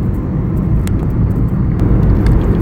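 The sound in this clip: A car driving on the road, with a loud, steady rumble of engine and tyre noise that stays even throughout, with no voices.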